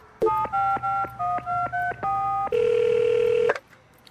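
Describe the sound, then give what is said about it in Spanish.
Telephone dialing a call: a quick run of short touch-tone beeps at shifting pitches, followed by one long, steady, louder tone that cuts off abruptly. “Ahora, a llamar a Merinita para que venga.”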